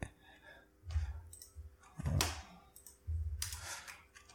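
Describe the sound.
Rapid clicking of computer keyboard keys as a short question is typed, a few bursts of soft keystrokes separated by brief pauses.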